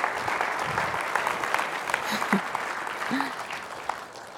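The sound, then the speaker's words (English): An audience gives steady applause to welcome a speaker to the stage. The quick clapping holds at an even level throughout. “Well, it's my privilege to welcome my wife to the stage. Let's put our hands together.”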